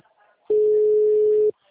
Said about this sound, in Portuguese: Porque eu tô numa ligação aqui ligando.